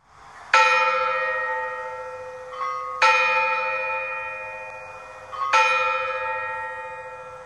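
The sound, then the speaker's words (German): A large tower clock bell strikes the hour with three loud, evenly spaced strokes. Each rich metallic clang rings on and slowly decays before the next one. “Er hört, wie die große Turmuhr 12 schlägt.”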